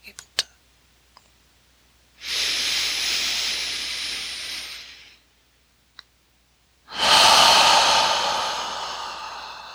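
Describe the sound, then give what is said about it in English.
Slow, deep breathing during a guided meditation: two long, airy breaths of about three seconds each, separated by a quiet pause, with a few faint clicks in the gaps. “Falling into the earth on the exhale, scooping up from the earth into the lower belly.”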